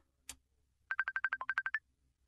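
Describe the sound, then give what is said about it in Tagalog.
Telephone ringing with an incoming call: a quick electronic burst of about ten short, evenly paced beeps at a steady pitch, one dipping slightly lower, after a brief click. “Tumatawag na. Sagutin ko na nga rin.”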